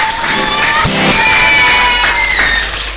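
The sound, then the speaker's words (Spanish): Crowd cheering and whooping at a center's tenth-anniversary celebration, rising as the audience is called on for a big round of applause. The dense, loud roar of voices holds steady throughout. “vamos a brindar un fuerte aplauso para todos ellos y para todas las personas que hacen posible esto.”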